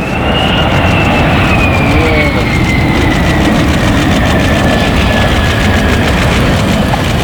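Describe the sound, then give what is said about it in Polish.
Loud roar of F-35 fighter jets making low passes over the Łask airbase, escorted by Polish F-16s. A dense, steady rumble fills the whole stretch while a high whine slowly drops in pitch. “F-35 przyleciały do bazy w Łasku w eskorcie polskich F-16. Nad samą płytą dwa niskie przeloty.”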